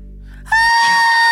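People scream together in a loud, high, sustained cry that holds a steady pitch. A low droning hum comes just before it.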